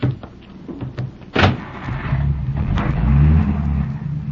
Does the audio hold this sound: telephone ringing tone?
no